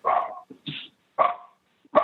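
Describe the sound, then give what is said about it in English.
Dogs bark in a quick series of sharp, fairly loud barks separated by brief silent gaps, with no talk over them. “sorry for the dogs. Let them stop barking here.”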